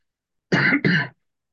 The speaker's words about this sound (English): I don't mean to cough in your ear.